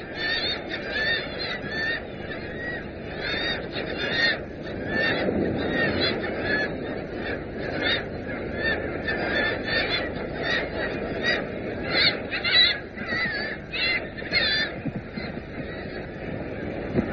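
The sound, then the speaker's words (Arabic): A seabird colony of gannets in Newfoundland calls from birds that feed in the Grand Banks waters. Harsh, honking cries overlap into a loud, dense, unbroken chorus that runs through the whole stretch. “وما يزال هناك بعض المستعمرات كمستعمرة طيور الأطيش هذه في نيو فاوند لاند، التي ما تزال تلتقط رزقها من مياه جراند بانكس الغنية.”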